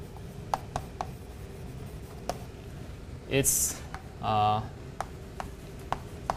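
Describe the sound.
Writing on a board during a recitation on network flow: scattered short taps and strokes, with a couple of brief squeaky squeals in the middle, under a quiet background.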